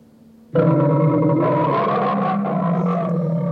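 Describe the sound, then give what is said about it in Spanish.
A furious caged lion roars in one loud, deep, sustained bellow with rich harmonics that starts abruptly after a brief quiet moment and holds steady to the end. “León enjaulado es eso. Un león furioso, ¿no? Un león me parece que es furioso.”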